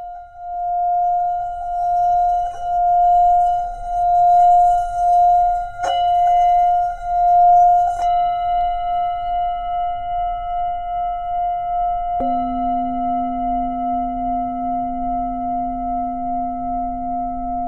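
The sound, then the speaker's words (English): A brass Tibetan singing bowl rings as a wooden mallet circles its rim, producing a steady, pure sustained tone that pulses with a slow, wavering beat. Deeper tones join partway through and hum beneath the ring, with no voices. “Some other instruments that I like to use in sound therapy are the Tibetan bowls, which are also very rich in harmonics. I like to now play you an example of a Tibetan bowl.”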